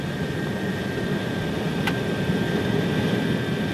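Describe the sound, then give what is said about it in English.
Steady, dense roar of airliner engines at takeoff power during the takeoff roll and rotation, heard from the flight deck. The noise stays loud and constant throughout, with one brief sharp click midway. “This is the takeoff. Rotate.”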